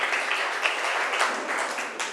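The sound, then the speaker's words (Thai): Students in a classroom clap for a group that is about to present, a fairly soft, busy patter of many hands with a few sharper claps standing out. “ปรบมือให้กลุ่มที่สามหน่อย”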